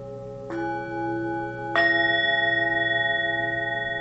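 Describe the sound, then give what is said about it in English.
Bells ring softly in a quiet room. Two separate strikes each open into long, clear ringing tones. The second strike is louder, and its sustained partials pulse gently as they slowly fade. “the soft sounds in the room, the sounds of the bells”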